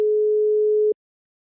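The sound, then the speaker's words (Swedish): A telephone tone sounds after a number is dialed: a single flat, mid-pitched beep lasting about a second, then silence. “Jag slår in numret.”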